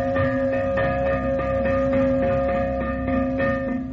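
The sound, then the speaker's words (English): A fire bell of the old New York volunteer fire companies rings with rapid, evenly spaced strokes over a steady, sustained metallic tone, loud and continuous throughout, with no voices. “when the fire bell sounded”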